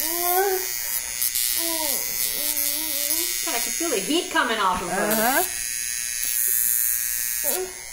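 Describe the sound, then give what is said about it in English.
A violet wand, a low-amperage electrical stimulation device, gives off a thin, high electric buzz that runs under several voices talking and reacting. “This is a low ampage tool that's used. You can look up a violet wand.”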